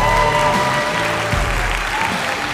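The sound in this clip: Audience applause welcoming a speaker onto a stage, a dense, steady wash of many hands clapping together, loud and continuous throughout with no voices standing out.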